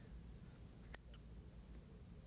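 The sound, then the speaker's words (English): A single faint scissor snip cuts through the skin of a rabbit's abdomen during a dissection. The snip is a brief, crisp click against a quiet background hiss. “Simply cut through the skin on the abdomen of the rabbit and”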